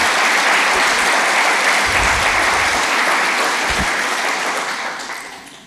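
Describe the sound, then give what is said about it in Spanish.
Applause from an audience at a religious sermon: dense, steady clapping that holds at an even level for several seconds, then fades toward the end. “Tendrían que aplaudir, ¿eh? Wow.”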